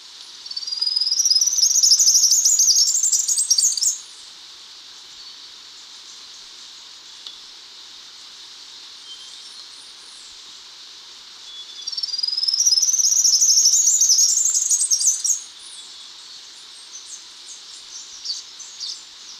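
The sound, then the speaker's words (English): Three-striped warbler song: two separate high-pitched bursts, each a few seconds long with a rising, rapid run of notes, separated by a quiet gap over faint steady background hiss. “three-striped warbler.”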